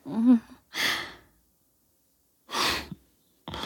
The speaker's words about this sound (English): Oh, that spot always makes you suck in a breath.